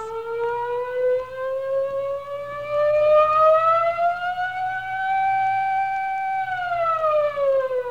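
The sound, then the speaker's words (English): A siren wails alone in one long, loud tone that climbs slowly in pitch, holds near its peak, then starts to fall toward the end, with strong harmonics. “And then there was a siren.”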